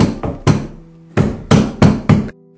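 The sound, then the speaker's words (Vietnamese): A fist pounding hard on a door, the blows urgent and heavy, falling as loud thuds in two separate bursts with a short gap between them and brief ringing after each. “Anh nóng vội dùng sức đập cửa.”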